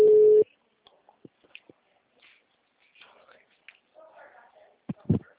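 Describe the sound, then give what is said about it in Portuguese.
A single short busy-signal tone from a dropped phone call, steady and mid-pitched, gives way to faint rustles, soft clicks and quiet murmuring. “a ligação caiu, desculpa.”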